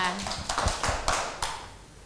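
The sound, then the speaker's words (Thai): Children clap in a classroom, giving a few scattered, sharp claps that rise and fade over about two seconds rather than a steady round of applause. “เพื่อนๆปรบมือให้หน่อยค่ะ”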